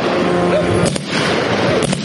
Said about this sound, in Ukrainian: так звана ППО чи то намагається збити дрон, чи то стріляє по резервуарах з нафтою.